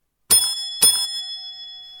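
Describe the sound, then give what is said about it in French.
A bell rung to summon a servant sounds twice in quick succession, each bright metallic strike ringing on with a sustained, slowly fading tone that lingers after the second ring. “Voulez-vous me permettre, chère mademoiselle, de sonner votre domestique ?”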